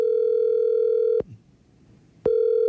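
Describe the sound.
A telephone calling tone sounds during an outgoing call: a steady mid-pitched tone plays, cuts off for about a second of near silence, then starts again. No voices are heard.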